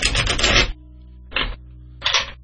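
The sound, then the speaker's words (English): A standard 78-card tarot deck being shuffled: three bursts of papery, fluttering card noise, one longer burst and then two short ones, separated by brief quiet gaps. “it is a standard 78-card deck. Card weights are nice. So I'm just going to give these things a quick shuffle.”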